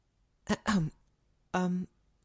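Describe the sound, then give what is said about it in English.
A voice acts out a female character clearing her throat: two quick voiced throat-clears close together, a short pause, then a longer, steadier one. “She caught your gaze and quickly righted herself, clearing her throat.”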